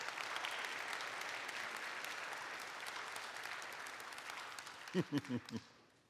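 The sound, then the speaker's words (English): A church audience applauds to welcome its new full-time pastor. The clapping is soft and continuous, then dies away near the end as a voice begins to speak. “Give him a round of welcome.”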